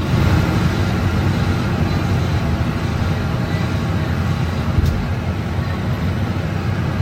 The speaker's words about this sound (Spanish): Este es el ruido de fondo que tenemos nosotros las 8 horas que estamos trabajando en algunos autobuses de nueva adquisición.